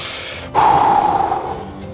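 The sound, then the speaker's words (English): A voice imitates taking a big breath: one sudden, loud, sharp inhaled gasp that holds briefly before trailing off, alone with no words. “He like focuses, closes his eyes, takes a big breath and just goes like.”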